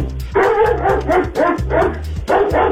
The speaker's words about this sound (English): Is that a horse? Yes, that's a dog.